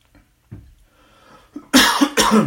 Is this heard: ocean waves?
no